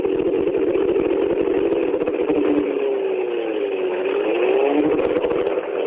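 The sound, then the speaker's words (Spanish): Racing car engine held at light throttle, revving steadily while the rear tyres spin to warm the transmission; a continuous whirring drone with a slowly rising and falling pitch, loud and alone. “Ahí está, menos de un cuartito de acelerador. Apenitas para que giren los neumáticos traseros, para que se vaya elevando la temperatura de todos los elementos de la transmisión.”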